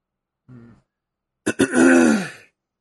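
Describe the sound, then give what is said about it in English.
Throat clearing from someone with phlegm in the throat: a faint short grunt, then a harsh, rasping clearing burst that trails off. “Yeah, I just got a bunch of crap in my throat.”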